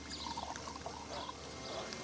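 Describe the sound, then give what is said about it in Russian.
Drinks are poured into shot glasses at a celebratory dinner table, a faint, steady liquid trickle lasting about two seconds without talk. “наливает рюмки”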